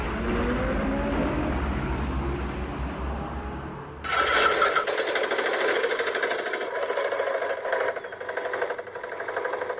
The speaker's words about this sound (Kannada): auto ಶಬ್ದ ಆತ್ ನೋಡು, ನಿಮ್ಮಪ್ಪ ಬಂದ ಅಂತ ಕಾಣ್ತದ